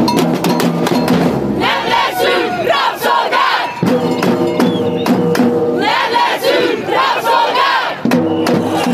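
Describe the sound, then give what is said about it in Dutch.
A crowd of protesters demonstrating in Hungary chants loudly and rhythmically, with a cowbell clanging through the steady roar of voices from start to end. “Ja, dit klinkt bijna als een Braziliaanse samba-demonstratie. Het is echt in Hongarije”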